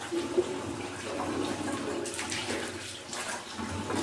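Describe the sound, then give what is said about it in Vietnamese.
Water splashes and runs steadily as someone washes their face during wudu ablution before prayer, with a continuous moderate wash of flowing, trickling water and a few small splashes. “xong rồi lấy nước này, mình rửa mặt. Rửa này xong, rồi đây này, rồi đây hết chỗ này, đấy. Rửa 3 lần á.”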